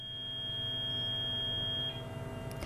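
A phone call's disconnect tone: a steady electronic beep tone that holds, shifts near the end and breaks into a few short, uneven bleeps, with no talking.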